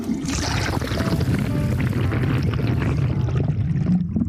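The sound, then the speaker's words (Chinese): Toilet flushing with a basic rear-jet design, water spraying out from the back of the bowl in a loud, steady rushing roar that thins out toward the end. “当然这款马桶用的是比较原始的冲水方案，它是直接从后面把水 喷出来。”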